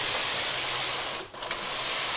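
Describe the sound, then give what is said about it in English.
A single knitting machine making merino scarves runs with a steady, dense whirring hiss. The sound briefly dips near the middle, then returns to the same level. “This one single knitting machine.”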